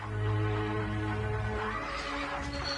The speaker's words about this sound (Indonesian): Kereta kuda. Aku melihat sebuah kereta kuda mendekat kemari.